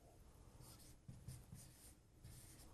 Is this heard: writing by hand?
yes